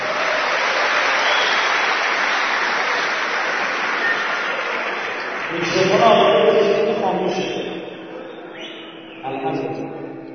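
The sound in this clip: A gathered audience claps on request, a dense and steady roar of applause lasting several seconds, then a man starts speaking as the clapping dies away.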